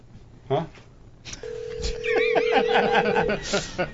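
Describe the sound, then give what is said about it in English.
Skype call ringing tone: a steady, level electronic tone holds for about two seconds amid laughter and people talking. “It's ringing. It's ringing. That's the sound you hear.”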